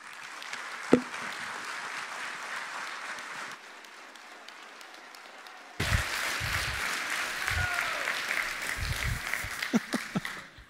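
An audience at Groton Bible Chapel applauds to welcome a preacher: a soft, steady patter of many clapping hands that thins out midway, then swells again toward the end.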